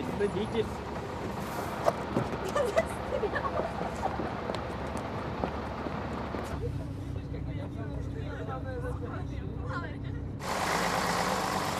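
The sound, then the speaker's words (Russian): A bus engine idles with a steady low rumble and hum beneath people talking. Partway through, the engine noise shifts to a more even drone. “Садитесь в автобус. В автобус все.”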